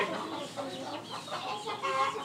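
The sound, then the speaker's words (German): Young, home-hatched hens cluck and chatter continuously as they roam about, a dense, busy mix of overlapping clucks at moderate loudness with no talking. “Und die ganzen kleinen Hühner, die hier jetzt rumlaufen, mittlerweile auch gar nicht mehr so klein sind”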